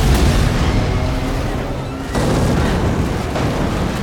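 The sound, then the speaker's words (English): An armored vehicle exploding during a gunfight: a loud, continuous roaring rumble fills the whole clip and surges again about halfway through. “They take shelter behind an armored vehicle, which immediately explodes.”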